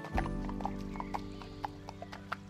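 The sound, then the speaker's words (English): A trotting pony's hooves clip-clop in a quick, uneven rhythm of many sharp, distinct beats. The beats stay moderately loud over a low background rumble. “Off he trotted to where the other colts were playing.”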